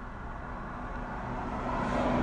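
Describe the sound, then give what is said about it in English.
Low, broad rumble of a truck driving by, faint at first and swelling steadily louder across the few seconds, with no voices. “a truck driving by.”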